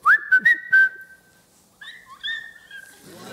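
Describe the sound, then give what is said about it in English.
A person whistles little tunes, first a few quick chirpy notes that settle into a long held tone, then, after a short pause, a softer wavering phrase, with a faint rustle at the end. “I'm constantly always whistling little songs, and I always know if Lennox is nearby”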